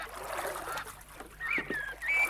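Duck calls from a lake in Mecklenburg with reeds and a jetty: a few short, reedy calls in the second half over a steady, fairly loud background wash.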